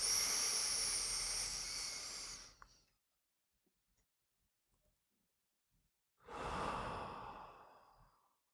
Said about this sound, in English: So, deep breath, letting go of all tension.